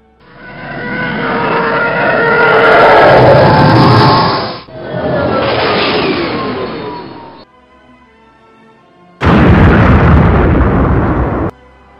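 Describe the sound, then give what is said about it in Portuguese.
A TIE Fighter starfighter exploding over towers in a tabletop role-playing game scene, followed by a rain of debris: loud, roaring blasts that run for several seconds each, cut off abruptly, with a quiet gap before the final burst. “Ele vem cortando no meio da, das torres e explode o TIE Fighter em cima de vocês fazendo que uma chuva de destroços”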